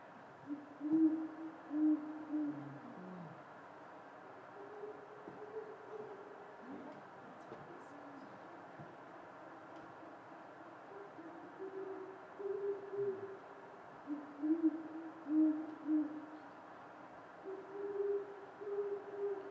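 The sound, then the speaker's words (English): Owls hooting in winter, soft low hoots coming in short, wavering runs with quiet gaps between them, calls from more than one owl in different trees trading back and forth, fairly faint throughout. “they're winter nesters, so they're most likely trying to find a mate and then make a nest so that they can make some baby owls in the spring. But this is what they sound like.”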